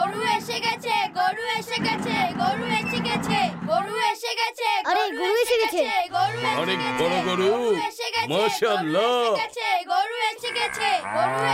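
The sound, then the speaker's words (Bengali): Cow mooing while it chases a man: repeated low, drawn-out bellows mixed with loud, excited children's voices and shouting throughout. “আরে এই গরুটা তো Usaid ভাইকে তাড়া করছে।”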